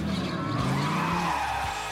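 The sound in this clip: A car engine revs just after ignition, a loud continuous roar with a tonal whine running through it for the full two seconds.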